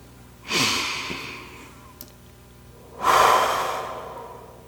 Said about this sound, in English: Now let's begin by taking a mindfulness moment. I'd like to invite you to take a few deep breaths.